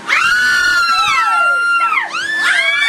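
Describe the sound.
Women screaming and shouting in excitement: several high-pitched voices overlap in long, loud, swooping shrieks, dipping briefly before surging again.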